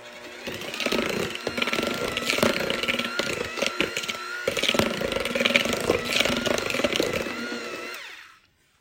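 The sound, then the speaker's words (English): An electric mixer's motor whirs steadily as its beaters work flour into a butter mixture in a kitchen. The buzzing drone runs for about eight seconds, wavering slightly in loudness, and then cuts off abruptly. “It's just the water being mixed in with the butter mixture, but it won't look like that at the end, and it'll be fine. So flour, mixing.”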